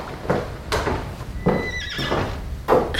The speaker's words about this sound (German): Es sind doch nur Lady Catherine und ihre Tochter in ihrer Kutsche.